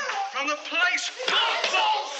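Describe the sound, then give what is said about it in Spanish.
A slap to the face, sharp smacks landing amid a violent struggle, under a voice talking. “La enrolla en la cabeza de la mujer tapándole la boca. La bofetea. Patadas al hombre.”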